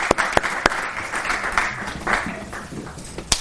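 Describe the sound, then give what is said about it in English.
An audience applauds steadily, a dense wash of clapping at moderate loudness, with a few sharper individual claps standing out near the start and end. “Let's give a loud round of applause to Rabbi Wallerstein.”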